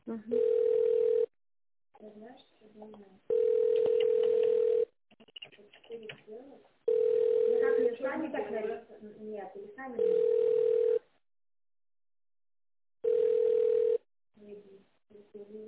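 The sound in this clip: A steady, mid-pitched telephone line tone plays while a call is being transferred, sounding in about five long even bursts separated by gaps and other, busier passages, with voice-like sound between the tones.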